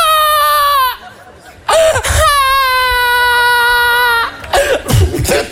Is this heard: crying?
yes